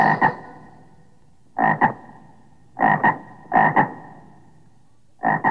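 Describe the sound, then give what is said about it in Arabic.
A frog croaks in paired, nasal, ringing calls, five double croaks spaced irregularly across about five seconds, each loud and short against near silence. “ضفدع ضفدع نق نق، اسمع اسمع نق نق”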